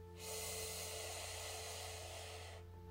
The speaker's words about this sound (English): You are going to take two deep breaths with me. Let's take our first deep breath in.